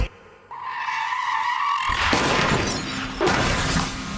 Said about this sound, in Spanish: Siete mil. Esa es la cantidad de accidentes automovilísticos que destrozan vidas en toda la ciudad de Nueva York cada mes, en una fracción de segundo.